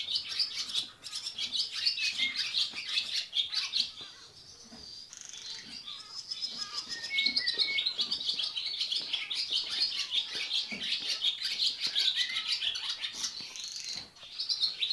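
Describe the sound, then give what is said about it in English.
A swallow sings inside stables in rapid, high twittering that runs almost continuously, with a brief quieter lull partway through before the chattering picks up again. “See if we can hear some more of that wonderful swallow.”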